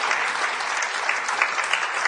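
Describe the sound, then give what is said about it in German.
A church audience applauds, a dense, steady patter of many hands clapping at once, loud and unbroken throughout, with faint voices mixed in. “Oh, gib Gott einen Applaus.”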